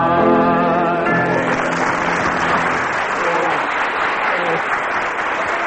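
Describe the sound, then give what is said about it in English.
Audience cheering and applause erupt as a sung duet ends, the last sustained notes of music fading under dense, loud, continuous clapping and crowd noise for several seconds. “Oh, dear. The cheers from the audience.”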